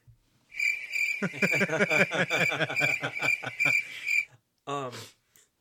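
Crickets chirp in a steady, high, rapidly pulsing trill for about four seconds, with chuckling laughter over it and a short burst of laughter after it stops.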